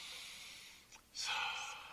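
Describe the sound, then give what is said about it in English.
A slow inhale drawn in during a guided meditation: a soft, airy hiss that dips into a brief lull, then swells into a louder, longer stretch of breath that gradually fades, with no voices. “Breathing in.”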